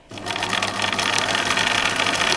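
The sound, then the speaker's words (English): A pedal-driven sewing machine runs after a brief start, its steady, fairly loud mechanical whirr and rattle continuing without break to the end. “Okay, sewing machine on. Let's put the pedal to the metal.”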